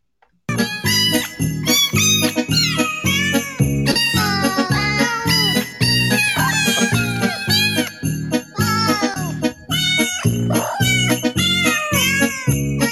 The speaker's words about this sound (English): Now, those are real cats.